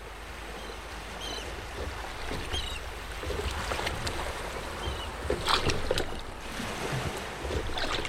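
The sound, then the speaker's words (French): A rowing boat out at sea, worked with oars, gives a steady wash of water with soft splashes and occasional light knocks rising over the continuous sloshing. “Nous les retrouvons en pleine mer, équipés de leurs avirons, d'une tenue de plongée et d'une radio de 5 mètres de portée.”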